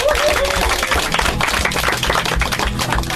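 Studio applause at Radio Belgrade greeting a band on its first appearance: dense, continuous clapping from a group, loud and even, with a low hum underneath.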